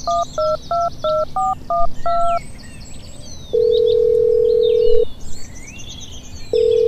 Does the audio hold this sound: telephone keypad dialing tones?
yes